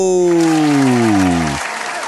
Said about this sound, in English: Ladies and gentlemen, please help me welcome Al Grego.